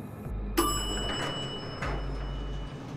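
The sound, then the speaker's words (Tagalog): An elevator bell chimes as the doors open: one bright, clear ding rings on and slowly fades over a steady low hum. “At yun, tumunog na ang elevator, senyales ng pagbukas nito sa aking harapan.”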